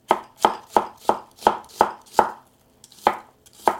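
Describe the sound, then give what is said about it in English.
Knife chopping Korean gochu peppers on a cutting board: about eight steady, evenly spaced crisp thuds, a short pause, then two or three more, loud and alone. “now I'm going to chop up some of these peppers. This is a Korean gochu pepper.”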